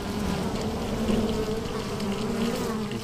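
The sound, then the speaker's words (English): Bees buzzing around a hive, streaming in and out along a busy flight path: a continuous, steady droning hum of many insects with no pauses. “If you look here, you can see a highway of bees. Look at them. They're everywhere. See them? See them coming and going?”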